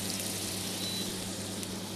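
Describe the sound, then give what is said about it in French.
Pineapple pieces sizzle in butter in a hot pan while being caramelised for a roasted pineapple dish. The hiss is soft and steady, with a light crackle. “dans la poêle. Et là, on y met des ananas à caraméliser.”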